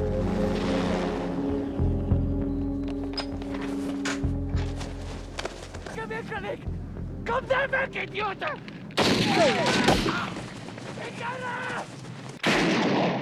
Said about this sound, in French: Qu'est-ce qui leur a pris de voler si bas et de tirer sur un chien et sur nous ?